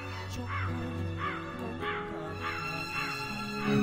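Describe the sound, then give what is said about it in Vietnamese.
A black crow caws harshly and mournfully as it flies up, giving repeated drawn-out calls at a steady pace over a low continuous drone. “Thế nhưng một cánh quạ đen bay vọt lên, kêu lên những tiếng thê thiết.”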